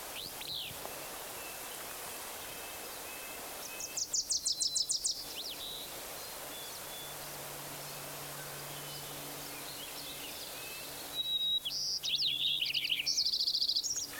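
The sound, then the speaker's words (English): Songs of a white-crowned sparrow, Wilson's warbler and willow flycatcher arrive in two bursts of high, bright chirping, a short one early on and a longer, busier one near the end, over a steady faint hiss. “white-crowned sparrow, Wilson's warbler, willow flycatcher”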